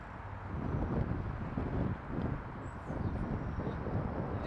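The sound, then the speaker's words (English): Wind blows hard outdoors near a platform, a steady low roaring rumble across the microphone that swells and dips in gusts throughout, with no voices. “pretty windy. And the fact that it's pushing me back towards the platform is not, it's the worst way for the wind to be going, in my opinion.”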